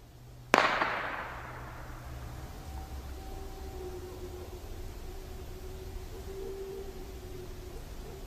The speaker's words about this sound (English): Somebody just shot over into the woods.